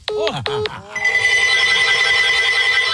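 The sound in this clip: Telephone ringing for an incoming call: two short warbling electronic tones give way to a long, steady, high-pitched ring that is loud and continuous, with no talk over it.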